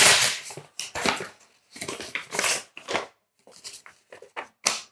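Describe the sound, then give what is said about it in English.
Paper rustles and tears as a double envelope holding a bourbon blending contest prize is opened. Crisp crackling bursts come in quick irregular clusters, with no talking. “It's a double envelope. I don't know if this has got something inside there.”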